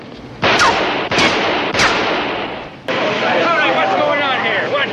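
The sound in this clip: Four sharp, loud gunshots crack out during a bank robbery confrontation, spaced roughly a second apart, followed by a burst of overlapping voices and commotion.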